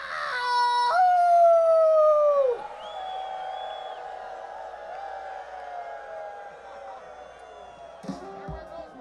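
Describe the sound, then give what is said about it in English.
A man howls in long, sustained, wavering tones. One early note slides sharply downward, then a quieter stretch of lower held tones follows, and a brief burst of other sound comes near the end. “let's, if you feel like it, howl along with this man.”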